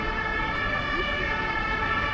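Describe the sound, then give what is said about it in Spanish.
Ambulance sirens at a cordoned-off market area, loud and steady, with dense harmonic wailing that holds throughout and low traffic rumble underneath. “La zona está acordonada y hay decenas de ambulancias en la zona.”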